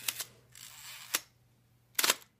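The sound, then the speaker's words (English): Pentacon 6 camera shutter firing, a few crisp mechanical clicks and clacks with brief quiet gaps between them, fairly faint and heard alone without talk. “Nope, it's the Pentacon 6. Click.”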